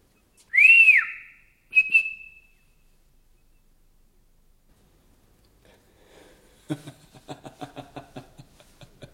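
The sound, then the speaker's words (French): A person whistles a signal of one long note that bends up and down, followed after a short gap by one brief, higher note. “Une longue de brève, une longue de brève. Allez, sifflez. Non? Je le ferai pour vous.”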